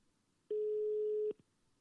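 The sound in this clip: A single steady telephone ringing tone from an unanswered call lasts about a second and sounds fairly faint on its own against near silence.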